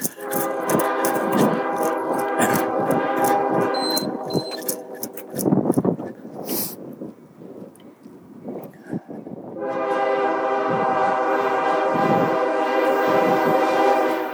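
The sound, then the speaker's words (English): A slow freight train passes a railroad crossing with its gate down. Long, blaring horn blasts open the passage and return near the end, and rumbling, clanking rail noise fills the gap between them. “Here it comes. Sounds like a slow freight.”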